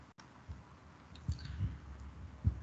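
A few soft, dull computer mouse clicks during a software demonstration, faint and irregularly spaced over quiet background noise, with no talk.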